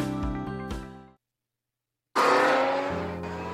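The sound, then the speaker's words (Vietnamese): Formula 1 race cars speed past at the Melbourne Grand Prix with a loud, high engine scream. A brief burst fades out, a second of silence follows, then a louder roar surges in and stays strong. “Giải đua xe thể thức 1 sẽ trở lại vào năm 2024. Hãy sẵn sàng để sống nhanh cùng Melbourne.”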